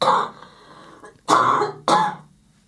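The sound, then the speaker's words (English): Harsh, gnarly coughing with a throaty, throat-clearing edge: three rough bursts, the first at the very start, then two sharper ones close together near the end, separated by quieter gaps. “I'm going to cough, and it's going to be gnarly, so we don't need this on mic.”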